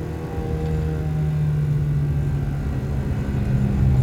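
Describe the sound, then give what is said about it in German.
Steady low engine drone of a car taking a curve in fifth gear, an even rumble with a humming tone that holds constant throughout. “Die Kurve nehmen wir im fünften.”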